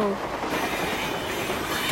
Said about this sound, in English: You make those trains go any faster and they won't stay on the track.